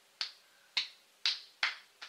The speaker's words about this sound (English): So when you do that, you want to clap, then you want to reverse it